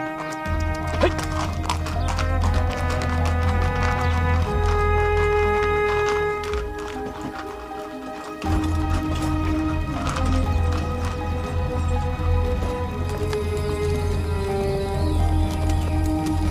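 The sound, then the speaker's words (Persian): Horse hooves clip-clop continuously as a horse pulls a carriage, the rapid clops riding over a steady low rumble that breaks off briefly around the middle before resuming. “جیران و گلنسا سوار کالسکه میشن”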